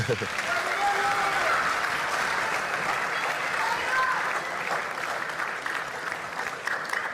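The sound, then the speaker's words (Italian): Steady applause from an audience during a conversation about football, an unbroken, moderately quiet stream of overlapping claps that stays even in level from start to finish. “Qua ci sta l'applauso se volete,”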